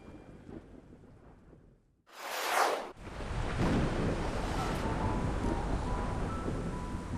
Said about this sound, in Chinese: 惊雷轰鸣，狂风骤雨笼罩了青泥洼街。